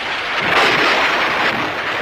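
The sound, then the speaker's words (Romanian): A loud thunder sound effect opens a comic weather-themed segment: a dense, steady rumble that swells briefly in the middle and holds for about two seconds without voices. “Tunete, fulgere, vijelie și alte trezneli meteoradiofonice Romeo Chelaru.”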